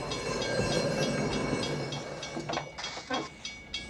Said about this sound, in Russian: На Делориан несется локомотив.